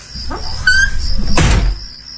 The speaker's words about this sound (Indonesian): aku buka pintu mobil, mengambil koper dan barang-barangku di bagasi, lalu aku tutup lagi.